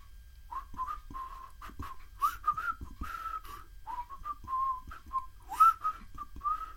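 Cheerful whistled tune from a man driving his goats out early in the morning: a bright melody of short and held notes at a fairly steady, high pitch, in continuous phrases with brief gaps and no voices.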